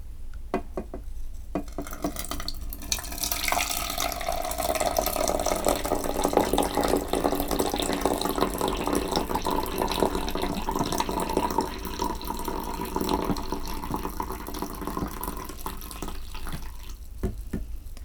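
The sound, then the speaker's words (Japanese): Black tea being poured: a continuous trickling, splashing stream of liquid that holds steady for nearly the whole clip, with no voices. “これ何の音かっていうと、紅茶を入れてる音だよ。”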